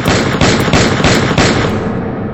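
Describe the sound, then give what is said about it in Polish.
A revolver fires a quick series of loud, sharp shots in an even rhythm, about a third of a second apart. A rough, rumbling tail fills the gaps between shots and fades after the last one. “Oddaje w jego kierunku 7 strzałów.”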